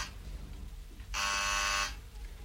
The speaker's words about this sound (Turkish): İşte biri kadının kapısını çalıyor.